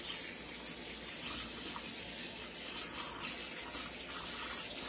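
Tap water pours steadily over a removable part of a Housnat cold press juicer as it is rinsed, a continuous, even hissing gush with no voices.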